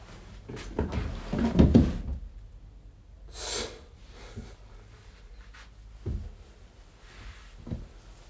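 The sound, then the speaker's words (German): Drawers yanked open one after another: a few abrupt scraping, thudding bursts, with the heaviest cluster early on and shorter knocks later, separated by quiet stretches. “Zehn Schubladen hatte ich wohl schon aufgerissen.”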